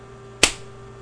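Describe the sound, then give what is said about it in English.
A single sharp slap on skin to the groin: one crisp, loud crack with a quick decay, standing alone over a faint steady hum. “A sharp slap to your balls. And another. And another.”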